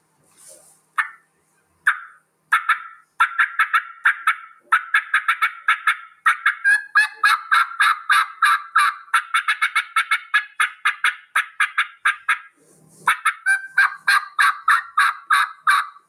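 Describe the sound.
Cuts and yelps on a hand-worked turkey call: many sharp, raspy bird-like notes in quick runs, with short pauses between bursts. No voices are heard.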